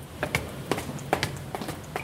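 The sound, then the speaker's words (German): Footsteps run up the stairs of a multi-storey car park: many quick, fairly faint taps in an uneven, loping rhythm over a low steady hum. “Wir schauen dem noch hinterher und dann laufen wir gleich die Treppe hoch.”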